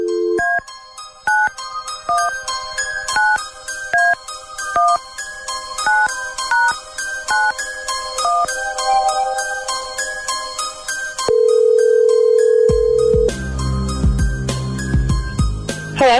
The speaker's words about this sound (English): All right, here we go. Dialing at random.